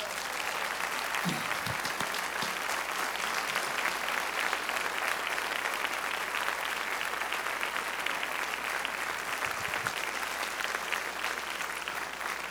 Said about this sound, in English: I want you to put your hands together and welcome to the stage to help me talk about Life is No Accident, Dr. Ming Wang.